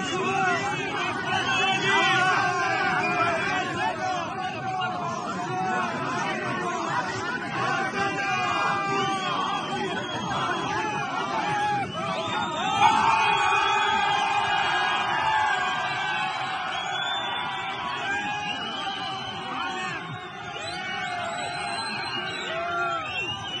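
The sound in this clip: A large crowd presses around bodybuilder Hadi Choopan, a continuous dense babble of many voices with shouts, whoops and cheers rising out of the din.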